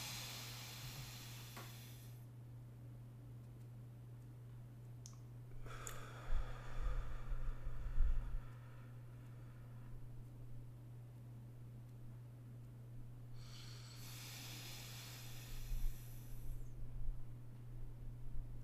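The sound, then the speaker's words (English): Deep breathing with a four-second inhale, heard as a few slow, faint rushes of air, each lasting a few seconds and separated by quiet stretches, over a steady low hum. “Take a deep breath. 4 second inhale.”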